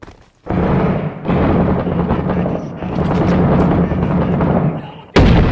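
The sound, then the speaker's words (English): Big bomb explosions in the video game Six Days in Fallujah: a loud, sustained rumbling roar of heavy blasts that holds for several seconds, then a sudden fresh burst right at the end. “Damn, big bombs.”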